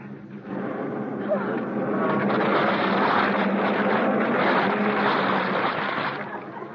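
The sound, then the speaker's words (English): A car motor running, a broad, steady rumbling roar that rises quickly at the start, holds at an even loudness for several seconds, and eases slightly at the end. “I can't hear you over the sound of the motor. Ah, the motor! It's running!”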